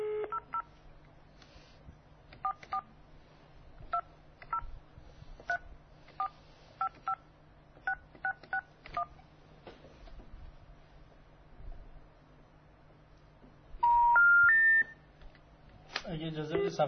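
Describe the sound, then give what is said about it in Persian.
Telephone number being dialed with DTMF keypad tones: many short, crisp beeps in quick irregular groups, then a pause, a rising three-note tone sequence and a burst of line noise at the end. “من اون شماره شون هم مجدد بگیرم.”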